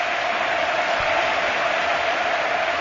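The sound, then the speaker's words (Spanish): A football crowd at Anoeta stadium gives a sustained ovation for Real Sociedad's Vela, dense continuous applause and crowd noise at a steady, strong level. “Es la ovación de Noeta para el autor de los 3 goles esta noche de la Real Sociedad.”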